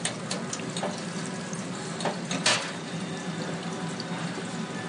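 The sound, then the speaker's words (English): Raw, starchy potato shavings drop straight into a deep fryer, giving a steady sizzling hiss of hot oil with a few brief, louder crackles. “You don't have to par cook it. Shave it straight into the fryer, and it gets crispy as hell.”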